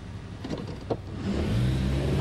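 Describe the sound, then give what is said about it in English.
A car drives off, its engine starting low and uneven before building into a louder, steady drone for the second half of the sound. “Hugging herself, Mary watches Hollis drive off, then turns to Mirzwak.”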